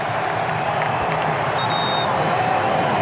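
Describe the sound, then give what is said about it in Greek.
Stadium crowd at a Norway–Brazil football match roars and cheers, roused by Ødegaard as Norway win a corner. The loud, continuous din carries scattered clapping throughout. “Κόρνερ για την Νορβηγία από τα δεξιά. Και ο Όντεγκαρντ ξεσηκώνει το κοινό.”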